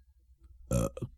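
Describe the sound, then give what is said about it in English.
A person burps in character during a recording take: one loud, low, rasping burp rising out of near silence, followed by brief softer trailing sounds. “burping in character”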